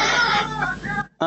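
A sick toddler fusses and whimpers in a short, strained whine that cuts off briefly before another voiced whimper starts.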